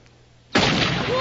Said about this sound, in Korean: 그때 또 총소리.